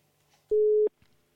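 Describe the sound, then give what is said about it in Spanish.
A single steady telephone tone plays while a call is placed: one clean, mid-pitched beep lasting about a third of a second, heard alone against a faint background. “Vamos a llamarle por teléfono a ver qué movidas nos cuenta hoy.”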